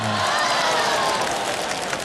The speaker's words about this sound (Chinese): 群众们爆发出了如雷的掌声